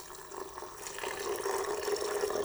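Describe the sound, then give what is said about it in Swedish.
Water pours into a blender for a cashew mixture, a steady splashing stream at moderate loudness throughout. “Och så har vi vår vatten. Och jag häller i”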